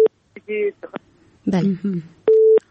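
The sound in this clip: A telephone busy tone sounds after a call is cut off. Short, steady mid-pitched tones come at the start and the end, and a voice speaks in the gap between them.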